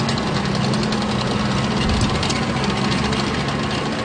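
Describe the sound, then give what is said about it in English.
Engine of a Cold War-era tracked military vehicle idling, a loud, steady rumble with a knocking, vibrating texture that holds evenly throughout. “And it's one of our most popular vehicles for the War Machines program. It's a tracked vehicle, which is always fun to see.”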